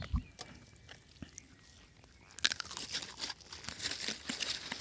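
Biting into and chewing a homemade muesli bar: quiet at first, then a loud burst of crisp crunching followed by steady, grainy chewing.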